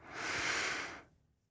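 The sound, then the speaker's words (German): A single deep breath drawn in, an airy, steady hiss that swells quickly, holds for about a second and then trails off into near silence. “Vielleicht haben Sie Lust, jetzt gemeinsam mit mir ein paar tiefe Atemzüge zu nehmen. Am besten am offenen Fenster. Einatmen.”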